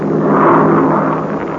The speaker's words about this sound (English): Boy, what an airplane. It's the French entering the race. You see the French flag painted on the fuselage?